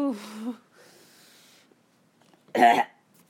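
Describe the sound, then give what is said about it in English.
A person coughs to clear something caught in the throat, giving one short, harsh, forceful burst. It follows a brief voiced sound and a faint breathy stretch. “Oh, something in my throat. Excuse me.”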